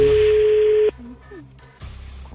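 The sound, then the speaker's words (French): A telephone rings on an outgoing call: one steady, single-pitched ringback tone holds for just under a second, then cuts off, and brief talk follows. “On va tout de suite l'appeler en direct sur Move à 813. Attention ça sonne, c'est déjà une bonne chose.”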